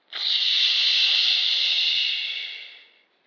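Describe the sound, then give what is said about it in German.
A cork is pulled from a bottle and a genie emerges, heard as a bright, airy hiss. The hiss starts sharply, holds steady for about three seconds and then tapers away, with no voices. “Aber er zog an dem Korken und öffnete die Flasche”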